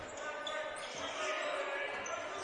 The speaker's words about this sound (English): Dribbling down the lane, the floater.